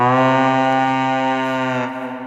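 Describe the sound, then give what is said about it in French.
A deep horn or conch call from a video game, used to represent Vikings: one loud, sustained, steady brassy tone rich in overtones that thins slightly as it ends. “Ici, le son d'une corne ou d'une conque pour symboliser les Vikings.”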